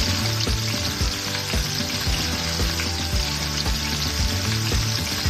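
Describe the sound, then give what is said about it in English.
Olive oil sizzles in a hot pan as chicken is about to be cooked, a steady hiss dotted with many small pops and crackles, with no voices. “We're gonna do a couple good glugs of olive oil here. Wow! I like that. It's not splashing. Oh, it's kinda like pop.”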